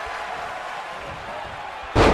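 A wrestler is slammed onto the mat with a double underhook, landing as a single heavy, loud impact near the end over steady background noise.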